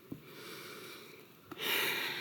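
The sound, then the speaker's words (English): A deep breath: a short sniff, another brief sniff, then a long, loud, airy rush of breath that fills the last part. “Take a deep breath.”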